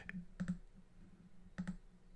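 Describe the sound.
Faint, sharp computer mouse clicks, a few in all, some coming in quick double pairs, separated by quiet gaps, with no one talking.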